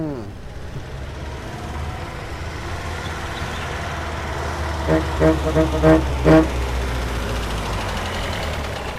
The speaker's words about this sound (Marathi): ती बस हॉर्न वाजवत गेट जवळ हाजीर